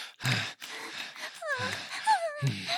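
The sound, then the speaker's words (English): Heavy, breathy panting close to a microphone: several gasping breaths mixed with short voiced moaning tones, fairly loud and uneven in rhythm. “You don't need to pant into the mic like a bitch in heat.”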